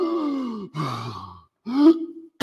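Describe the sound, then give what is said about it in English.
A voice imitates a person struggling to breathe at the back of a room while wearing breathing apparatus, making three strained, groaning gasps separated by short silences, with a brief sound cut off at the end. “that just made myself cough now trying to do that. Okay, but you could hear this person struggling to breathe there at the back there.”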